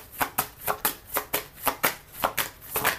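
A deck of cards being shuffled, heard as many quick, crisp riffling bursts in a steady rhythm, fairly loud with no talk.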